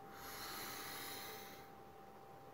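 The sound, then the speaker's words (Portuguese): A deep breath drawn in during a guided meditation, a steady airy hiss that holds for over a second and then eases off, with no talk. “Vamos inspirar.”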